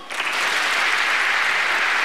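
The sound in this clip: Audience applause in a live comedy hall: dense, even clapping that swells in quickly and then holds steady and loud to the end, with no voices rising above it.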